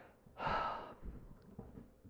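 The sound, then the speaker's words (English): A single deep breath, a brief airy rush of just over half a second, soft and breathy, trailing into faint low rumbling. “Okay, let's take a deep breath.”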